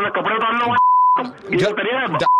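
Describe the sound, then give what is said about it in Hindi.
A phone call cuts off with a short, steady electronic beep. It sounds between stretches of voice-like sound, and a second beep starts at the very end. “Hello hello hello भाई साहब, आपने phone काट दिया यार”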